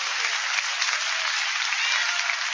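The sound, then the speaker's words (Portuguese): A church audience claps to praise God, producing dense, steady applause with an even loudness throughout and no voices standing out. “Pode louvar a Deus com as palmas, meus irmãos.”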